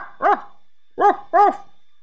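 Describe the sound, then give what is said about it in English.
A dog gives three sharp, clear barks: a single bark, a short pause, then two barks close together. Nothing else is heard behind them. “It's a dog!”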